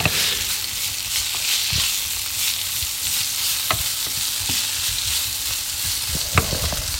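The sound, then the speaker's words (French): Small red onions frying in a pan give a steady hiss and sizzle, broken by a few scattered clicks and scrapes of stirring. “je fais fondre des petits oignons rouges”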